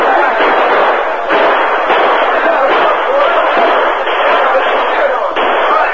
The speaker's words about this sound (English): Outlaws tried to fight their way out of the trap, but they became panic-stricken as the bullets flew thick and fast.